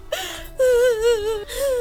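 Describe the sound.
Sobbing and wailing from a grieving person, three drawn-out, wavering cries with short catches of breath between them, loud and with no other voices.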